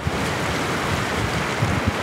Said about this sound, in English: With its gin-lined shelves, beanbags, and barefoot surfers, the White Banana Bar overlooks the Pacific.